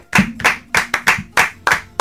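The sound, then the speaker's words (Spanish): Sharp hand clapping, a quick run of loud, distinct claps at a fairly steady, brisk pace, with no talk over it. “Bien, un aplauso, che.”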